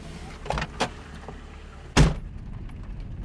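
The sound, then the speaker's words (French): A car door, apparently of an imported Toyota Carina, gives a couple of light clicks and knocks, then one solid, sharp thud as it is shut; quiet otherwise. “Apparemment, t'as pas bien fermé ta portière.”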